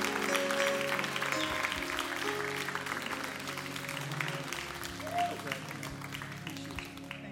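A New Harvest Church audience gives visiting pastors a round of applause. The dense, crackling clapping runs the whole way, loudest at first and easing slightly as it goes on.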